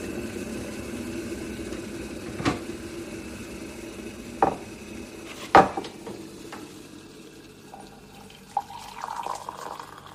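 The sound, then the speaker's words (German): Dishes clink a few times in a kitchen while malt coffee is being made, over a steady background of running or stirred water. The sharp clinks are spaced irregularly, and no one speaks. “Aber zuallererst koche ich mir einen Malzkaffee.”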